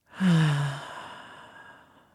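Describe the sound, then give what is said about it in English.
A deep breath let out as a long, voiced sigh during a guided relaxation exercise: one strong exhale that starts loud and fades slowly over about two seconds. “take a beautiful inhale in. And then an exhale out.”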